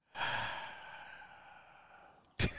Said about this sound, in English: I am down with the breath you take before your words of wisdom.